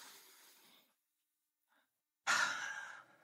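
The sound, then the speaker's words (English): A deep breath, heard as two long airy breathy sounds split by a short silence, the second louder and fuller, with no talk. “let's take like a deep breath.”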